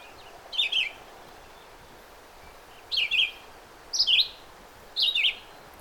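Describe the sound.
Loud, clear song of a common bird that builds nests hung from branches: four short whistled phrases with pauses between them, one alone and then three in quicker succession, over a soft steady background hiss.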